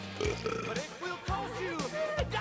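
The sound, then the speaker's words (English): A huge infant being burped by a large woman gives a few low, rough belching bursts mixed with throaty grunting sounds, fairly faint. “Two nuns look on dismayed as Marlene burps the baby.”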